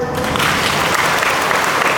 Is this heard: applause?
yes